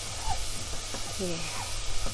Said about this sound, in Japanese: にんにくと生姜をまずさっと炒めてはいとってもねいい香りがしてきたので